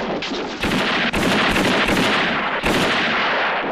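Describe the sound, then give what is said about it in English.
Gunshots from a western film scene in which a man shoots his adversaries, several sharp, loud blasts at irregular intervals over a dense, noisy background. “Eli Wallach shoots his adversaries and makes his getaway by crashing through a window”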